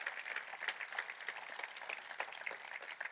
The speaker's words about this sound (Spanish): Est-ce qu'on peut encourager quelqu'un qui a besoin d'entendre ce soir? Podemos aplaudir para animar a alguien hoy.